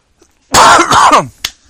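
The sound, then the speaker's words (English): A single loud, rasping cough from a person who is still coughing. It is a harsh burst lasting under a second, followed by a brief, sharp catch of breath, with no talk. “Well, yes, I'm still coughing.”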